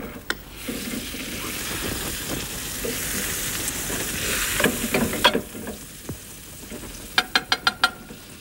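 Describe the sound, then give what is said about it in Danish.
Butter sizzling and browning in a frying pan gives a steady crackling hiss throughout, ending in a quick run of sharp taps. “Jeg skal lige have det smør på panden først, for så kan vi vist nå at få det til at brune.”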